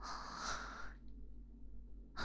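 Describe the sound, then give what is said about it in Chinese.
A heavy, breathy exhale lasting about a second, then near quiet, with another breath beginning right at the end. “呼吸也这么急促”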